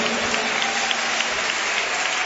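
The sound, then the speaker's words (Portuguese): An audience claps hands during a Pentecostal church service, with steady, rhythmic claps falling together in time on a continuous bed of clapping, moderately loud and without voices. “Bate palma e dá glória, glorifica.”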